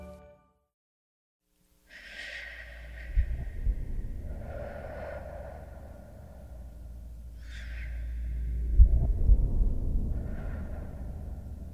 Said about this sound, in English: We breathe in. We breathe out. It's something so primal, so basic to our existence, we're not even conscious of doing it, really.